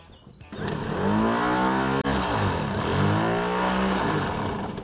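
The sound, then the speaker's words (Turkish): A starter motor wired straight to the supply spins a vehicle engine with a loud, continuous whirring whine whose pitch wavers slightly, broken by one brief dropout partway through; no voices are heard. “Bunu doğrudan marş motoruna bağlayacağım ve motoru çeviriyor mu bakacağım.”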